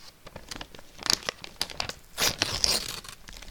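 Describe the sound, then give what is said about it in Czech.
Crinkling and tearing of a package being unwrapped after it was cut open with a knife: irregular bursts of rustling and ripping, fairly quiet, with short louder flurries and no voices. “Počkejte, já dojdu pro nůž, rozbalíme to.”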